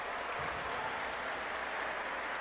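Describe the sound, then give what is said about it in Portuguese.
Futsal fans applauding an injured Concórdia player as he leaves the game. The clapping is fairly faint, forming a steady, even wash of hands with no distinct individual claps or clear voices. “Atitude bacana da torcida do Jack Futsal. Aí aplaudindo a saída do jogador do Concórdia.”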